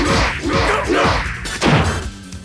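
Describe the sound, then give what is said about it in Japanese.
Punches landing on someone in an action drama: a few loud, heavy thwacks in quick succession, each with a swishing rush of air. The final hit is the strongest. “いいパンチだ。”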